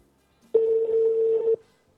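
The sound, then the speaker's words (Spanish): Ringback tone of a telephone call placed to a second number: one steady, mid-pitched electronic tone lasting about a second, heard alone and starting and stopping abruptly. “ahora estamos llamando su otro número. Estamos llamando ahí, Nelson.”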